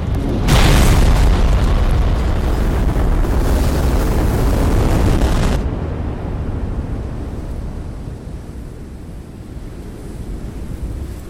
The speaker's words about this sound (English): The uranium bomb lays waste to the city.